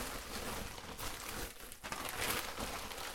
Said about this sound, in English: So I'm gonna open this and we'll see what's in here, because this is a very large package.